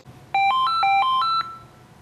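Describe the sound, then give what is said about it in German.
An electronic telephone ringtone sounds in a country doctor's practice. It is a single brief melodic burst of about six short, bright tones that step up and down in pitch for roughly a second, followed by quiet. “Im Moment läutet das Telefon in der Praxis von Heinz Fluck noch.”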